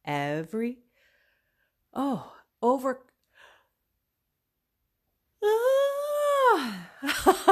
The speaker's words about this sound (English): That was an overwhelming, overcoming yawn. I couldn't stop it.